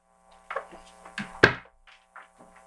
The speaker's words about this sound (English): I'll put that back down before I fucking hit something and destroy it.